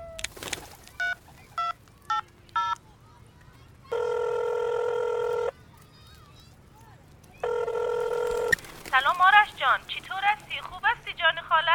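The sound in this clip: A phone call being placed, with several quick keypad dialing beeps followed by two long, steady ringback tones, after which a person begins talking over the line.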